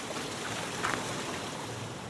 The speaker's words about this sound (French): Et là, c'est l'eau qu'on retrouve, tu vois, le trop plein du moulin. Il passe, là, on a un lavoir. Il passe là, il ressort là. Tu entends le bruit de l'eau?